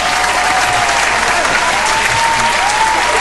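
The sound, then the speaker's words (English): Audience applause welcoming a talk show guest: dense, steady clapping from a studio crowd that holds at an even loud level from start to finish, with no talk over it. “Please give him a warm welcome.”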